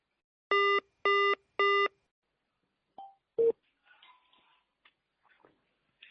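Telephone beeps sound on a call that goes unanswered. Three short, identical tones come in an even rhythm, followed by a few faint clicks and soft line noise.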